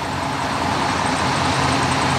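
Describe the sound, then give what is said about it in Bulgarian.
Steady road traffic at a parking area beside the Struma motorway in Bulgaria on a hot day, a continuous loud engine and tyre drone with no distinct vehicle passes. “Здравейте от припека на един от паркингите край автомагистрала Струма.”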